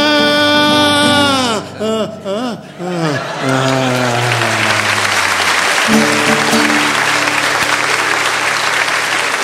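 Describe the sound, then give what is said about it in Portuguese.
Audience applause after a bawdy stand-up comedy number. A voice with drawn-out, bending tones fills the first seconds, then dense, loud clapping takes over and continues steadily to the end. “Obrigado, o pessoal gosta de aplaudir as bucetas, né?”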